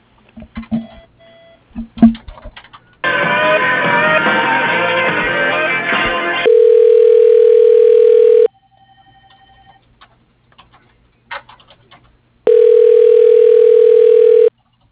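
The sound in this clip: Telephone ringing during a call transfer, heard as two long, steady ringback tones separated by a pause, after a few clicks and a burst of noisy line sound.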